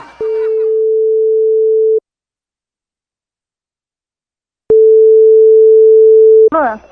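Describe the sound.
A telephone line tone sounds while a call is placed: two long, steady, mid-pitched tone bursts separated by a stretch of silence.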